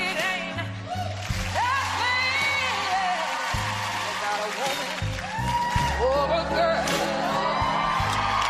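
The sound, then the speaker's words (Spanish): A television studio audience goes wild, whooping, shouting and cheering during an improvised vocal duet, with loud, sustained crowd noise and strong voices running throughout. “El público enloquece, esto no estaba previsto, hay un pique real en la tele.”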